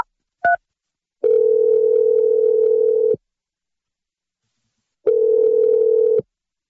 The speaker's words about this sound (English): I'm going to dial his number right now. Let's see if he picks up.